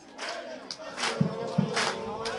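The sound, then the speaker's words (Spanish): A football crowd cheers and chants for Club Deportivo at the Municipal Andrés Sarria stadium. Massed voices swell in uneven surges, with a couple of sharper shouted bursts standing out from the roar. “Toda la tribuna de este Municipal Andrés Sarria, gran parte de ella, César, animando aquí al Club Deportivo.”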